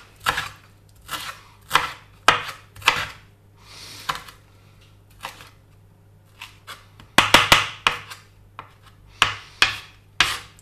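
Coarse knife chopping of fresh parsley for carrot-parsley walnut falafel: many sharp, irregular strokes on a cutting board, coming in quick bursts with short pauses between them. No voices are heard.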